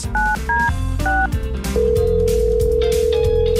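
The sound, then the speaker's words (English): Touch-tone telephone dialing: three short two-note beeps, then a long steady tone that holds to the end, all over a constant low background sound. “All right, so I'm start dialing over here.”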